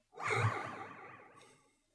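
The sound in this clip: A voice imitates a character's labored, voiced breath in a tabletop role-playing game: a single strained, groaning exhale that starts loud and breathy, then fades away over about a second and a half.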